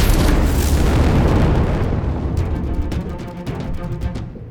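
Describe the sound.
A heavy blast from a starship weapon fired at a network node: a loud, broad roaring rumble that slowly fades, with scattered crackling bursts near the end.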